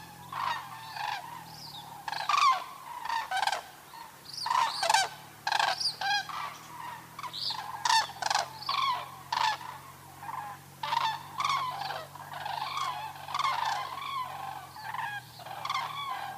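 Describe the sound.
A flock of common cranes calls while flying overhead at dusk, coming in to roost on a pond in winter. Many loud, overlapping rolling calls sound steadily throughout, over a constant low hum.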